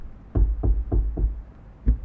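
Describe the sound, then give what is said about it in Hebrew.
Knocking on a door, five firm knocks: four in a quick, evenly spaced run, then a short pause and one more knock. Each is a dull, solid thud with no voices around it. “שם אותה בצד, מאחוריו, דפק בדלת. אין תשובה.”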